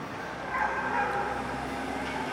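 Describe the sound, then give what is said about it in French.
A dog growls and barks in a few short, fairly faint bursts that stand over a low, continuous rumble. “Un chien qui grogne, qui aboie”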